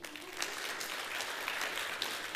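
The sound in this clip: Audience applause welcoming newcomers at a gathering at Coastal: continuous, even clapping from many hands, fairly faint and steady, with a few brighter accents and no voices over it.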